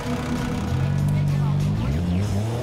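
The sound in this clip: Race car engine droning as the car heads back out onto the track during a training session after a pit stop, a steady low rumble with talking over it.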